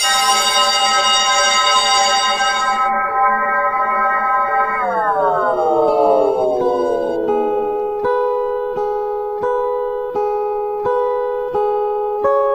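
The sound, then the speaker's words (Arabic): An eerie, loud electronic bell tone like a school break bell, layered with overlapping harmonics; its pitch slides down partway through, then holds as a steady drone marked by regular clicking pulses. “جرس بيدق تقريبا كل ربع ساعة، جرس زي جرس الفسحة في المدارس، بس صوته كان مختلف متداخل”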